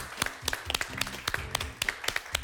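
Applause for the winner of a weekly competition final: a thin, fairly quiet patter of claps from a few people, loosely rhythmic and continuous throughout.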